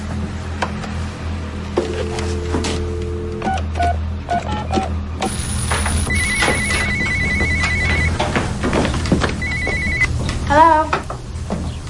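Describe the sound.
A telephone rings, with electronic ring tones sounding in a few separate bursts over a busy background of clicks and other household noise, with a voice heard briefly.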